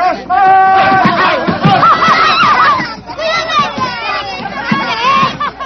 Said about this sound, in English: They're all hitting each other with truncheons.